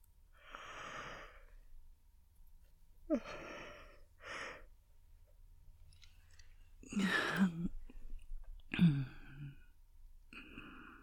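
A person yawns softly several times, each yawn a slow, breathy, drawn-out exhale with voiced, wavering tones. Quiet pauses separate the yawns, and a couple of the later ones are fuller and louder.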